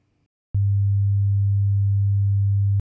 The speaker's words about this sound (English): Try to hear the difference between these frequencies. Note at what percentage increase you begin to easily hear a change. First, 100 Hz.